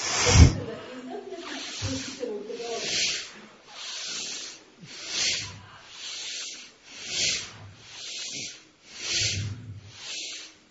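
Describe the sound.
Forceful exhales through the nose during an energizing breathing exercise, with the arms brought down on each breath: a long, regular series of sharp hissing bursts, evenly spaced with short pauses between.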